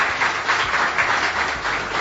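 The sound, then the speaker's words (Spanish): An audience applauds to greet guests arriving, dense, steady clapping that holds at an even level for the whole stretch with no break or voices. “Aplauden, ¿eh? Los saludan con un aplauso, ¿les parece?”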